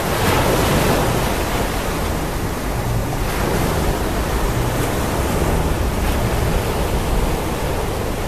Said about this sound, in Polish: Tak, to bez żadnych oszustw Pacyfik, nad którym zostaniemy jeszcze dzień czy dwa.